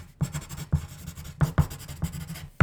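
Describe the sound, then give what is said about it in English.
Writing by hand as a word is jotted down: several quick, scratchy pen strokes with sharp onsets and short gaps, loud and close, no voices. “Okay, so the theme this month is momentum. Momentum. So I'm going to write that bad boy down.”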